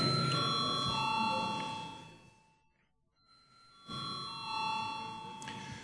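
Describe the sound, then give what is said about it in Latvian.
A parliament chamber bell is rung before a vote, giving a sustained, bright electric ringing in two long stretches separated by a short pause in the middle. “Lūdzu zvanu.”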